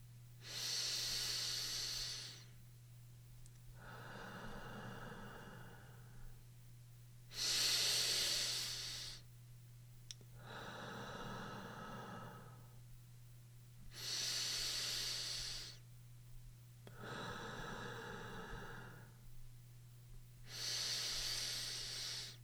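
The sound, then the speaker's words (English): Slow guided breathing exercise: four long, airy inhales alternate with three softer, lower exhales at an even, unhurried cadence over a faint steady hum. “Again, let's breathe 4 times, maintaining the same cadence and count. You can breathe along with me.”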